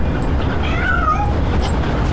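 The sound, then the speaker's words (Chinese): A cat meows once, a faint, drawn-out call that is partly masked by loud, steady background noise. “谁虐猫呢？ 不会吧？”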